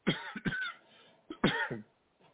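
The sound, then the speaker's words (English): A slight cough, heard as a few soft, short cough bursts in two clusters with quiet pauses between them. “excuse me, guys, I got this slight cough.”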